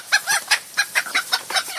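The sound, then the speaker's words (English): Puerto Rican roosters call in a quick run of many short, bright, raspy bursts, clucking rhythmically and fairly loudly with brief gaps between them, and no voices over them. “I don't know, some Puerto Rican fucking roosters.”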